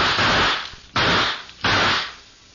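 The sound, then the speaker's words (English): Gunshots ring out in a dark room. There are three sharp, noisy blasts, each followed by a hissing tail that fades out, with no voices between them. “Took a couple of shots at me and ran.”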